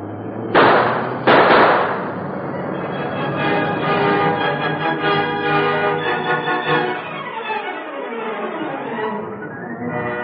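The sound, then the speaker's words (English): Two sharp gunshots fired at a pursuer crack out in quick succession, followed by a loud, ringing musical sting whose tones slide downward toward the end. “Give him a couple of shots,”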